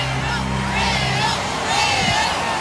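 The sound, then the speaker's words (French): A huge crowd of faithful cheers Pope Leo XIV at a giant outdoor mass on Place de la Concorde in Paris. The sound is a dense, steady roar of many voices over a low hum. “Vous les entendez, ces centaines de milliers de fidèles venus acclamer le pape Léon XIV, qui a tenu une messe géante, place de la Concorde”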